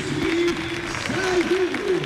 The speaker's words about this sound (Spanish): Bueno, pues aplausos para Edu Espiado, lógicamente. El autor del segundo gol del Real Zaragoza.